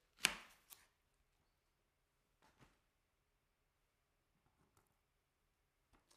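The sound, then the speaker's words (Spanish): A knife dices an onion into small cubes on a board for a Spanish potato tortilla: faint, sparse chops, mostly in close pairs, separated by quiet pauses. “Mientras voy a ir cortando la cebolla en cubitos.”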